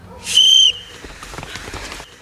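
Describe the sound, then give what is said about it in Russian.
A whistle is blown to start a cross-country running race held for a city day. One shrill, steady blast lasts about half a second and is followed by a low, scattered jumble of noise. “Бежим по свистку.”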